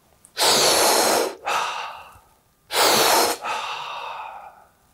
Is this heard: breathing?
yes